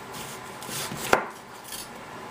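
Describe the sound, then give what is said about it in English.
A knife slices onions thinly for a garnish, giving one sharp, crisp cut against the board over a soft, steady background hiss. “what I'm going to do with these onions is I'm just going to slice them up thinly.”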